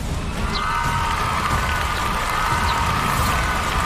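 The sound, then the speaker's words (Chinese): A studio audience cheers for one competing team during the scoring round of a game show, a broad, continuous roar of voices that holds steady throughout. “来，听到你们的欢呼声”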